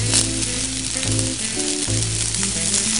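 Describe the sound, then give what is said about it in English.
Vegetables and rice fry in a hot pan, giving a steady, loud, crackling sizzle that holds without a break across the whole clip. “And then you add in your vegetables and your rice. I'll flatten that out a little bit, let that cook some more.”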